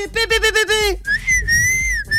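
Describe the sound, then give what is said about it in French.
A voice imitating a referee's whistle at a Hull City versus Manchester United football match: a run of short, wavering trilled bursts followed by one long, steady, shrill blast, loud and alone. “j'essaye de faire le sifflet, bien sûr.”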